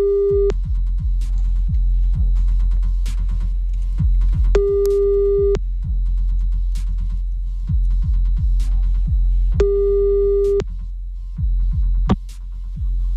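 Ringing tone of an outgoing telephone call: a steady, mid-pitched tone in three bursts about five seconds apart, the first cut short, over a loud throbbing low beat.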